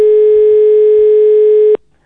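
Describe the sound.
A loud, steady telephone tone sounds on a call made with a phone card that is about to cut off. The single unbroken mid-pitched tone plays alone, then stops abruptly, leaving only faint line noise.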